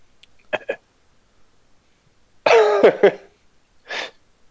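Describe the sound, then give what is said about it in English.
An awkward, forced cough with throat-clearing: a couple of short faint puffs, then a longer voiced, hacking cough broken into a few bursts, and a final breathy cough, with no other sound between. “awkward cough”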